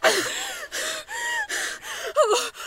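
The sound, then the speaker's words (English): A woman gasps and struggles to breathe, a run of strained, wheezing breaths in quick succession, each short and harsh, with a sharper, pitch-wavering gasp near the end. “What's wrong with her? Why can't she breathe?”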